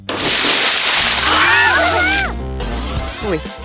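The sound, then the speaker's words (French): A large amount of water dumps from an overhead trapdoor onto three children in a loud, sustained rushing splash, then dies away into dripping and sloshing while high-pitched voices squeal. “les trois enfants sont totalement trempés. Ils viennent de recevoir des litres d'eau.”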